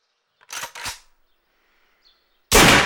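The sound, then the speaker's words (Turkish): Gunshots in a film scene set on snowy ground: two quick sharp cracks close together, a short pause, then a much louder, sustained blast at the end. “Silah seslerinin nereden geldiğini görmüyoruz.”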